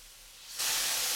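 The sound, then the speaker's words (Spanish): Tequila poured into a hot frying pan sets off a sudden sizzle: a soft hiss jumps to a loud, bright, steady spray-like hissing partway through. “Pones el sartén, sácalo un poco. ¿Lo saco? Hazle así, eso, ahora pon el tequila.”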